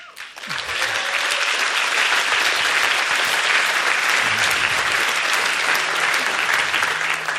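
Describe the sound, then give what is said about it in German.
Applause from the audience at a Christian youth gathering's morning session, swelling almost at once into loud, dense clapping that holds steady and even with no break. “vielen Dank, der Applaus, der gehört euch selber”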